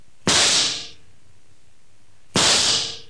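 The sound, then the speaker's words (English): Two gunshot sound effects in a radio drama: sharp, loud bangs about two seconds apart, each with a short hissing decay, and no talk between them. “You just pulled out your gun and you shot them both. Like this.”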